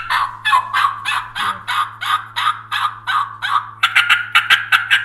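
Wild turkey gobbling and yelping: a long, steady run of raspy, loud notes, then a quicker burst of sharper, higher calls near the end.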